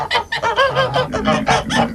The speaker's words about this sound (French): Le coq à 5h du matin, c'est agréable.